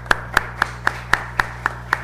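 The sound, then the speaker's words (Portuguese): Eight evenly spaced hand claps at a steady, brisk rhythm during a municipal council session, sharp and distinct over a low constant hum. “Salve de palmas, secretário.”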